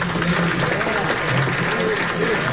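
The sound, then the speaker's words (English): Audience applause fills a town hall meeting, a dense, steady wash of many hands clapping at an even loudness throughout, with no distinct voices. “And then he asks everybody to applaud for those people.”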